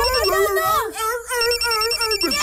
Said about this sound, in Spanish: ¿Qué es eso? Una llamada telefónica.